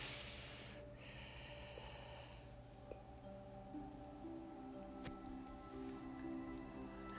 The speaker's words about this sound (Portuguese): E então agora, inspire pelo nariz.